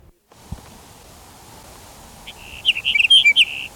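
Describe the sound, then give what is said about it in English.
A sage sparrow sings one short, high, tinkling phrase of quick twittering notes near the end, after a quiet stretch of soft background hiss and a single faint knock. “Here's Sage Sparrow number 6.”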